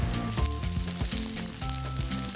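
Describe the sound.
Eggplant slices sizzle as they are heated in a pan until soft enough to roll, a steady crackling hiss that runs throughout under background music.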